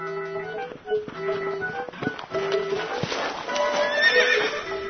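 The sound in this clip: A horse's hooves clip-clop in an uneven rhythm while the horse whinnies repeatedly in high, wavering tones, the hoof beats and neighs overlapping throughout.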